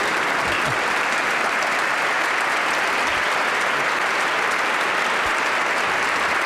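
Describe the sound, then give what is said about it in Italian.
A prolonged applause rings out for a youth choir at a choral event, a dense, steady wash of clapping that holds at an even, loud level throughout with no talk over it. “Bene, prolungato applauso”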